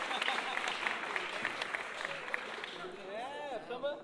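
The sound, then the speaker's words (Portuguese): Audience applause for a samba musician at a samba performance, a dense patter of many hands clapping steadily before it thins out and a voice rises near the end. “Um aplauso aí pro nosso querido Nego Velho.”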